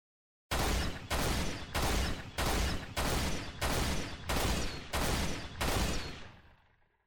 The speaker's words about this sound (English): So this is how the actual Needler rifle sounds like.